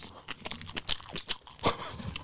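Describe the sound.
Crunchy chewing of McDonald's food, with many sharp, uneven crunches and bites in an irregular rhythm, fairly loud and without any talk.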